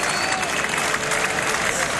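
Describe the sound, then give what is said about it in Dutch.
Applause from the main stand at a Belgian top-flight play-off football match between Club Brugge and Union St. Gilloise, heard as a loud, steady crowd wash of many hands clapping at an even level throughout, with no single claps standing out. “Applaus op de hoofdtribune ook voor Hugo Vetlessen.”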